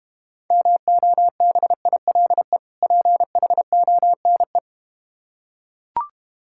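Mobile phone tone: a single steady, mid-pitched electronic beep broken into many short pulses in an uneven rhythm for about four seconds. Then comes a pause and one brief click.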